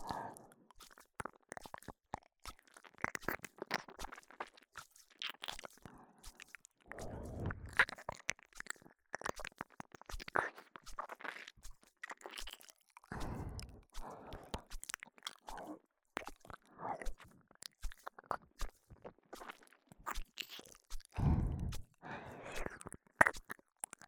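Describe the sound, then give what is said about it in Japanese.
Close, wet ear-licking mouth sounds with many soft, irregular smacks, clicks and slurps, quiet and without talk. “ではベロ中に耳なめを混ぜながらご奉仕させていただきます。”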